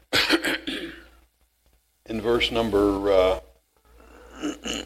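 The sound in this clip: A preacher clears his throat during a church sermon, a short rasping burst at the start, then a voiced, strained stretch and a softer rasp at the end, with speech mixed in.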